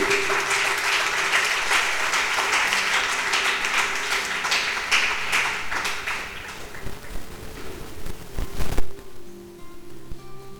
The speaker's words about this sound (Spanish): Un aplauso para el Señor.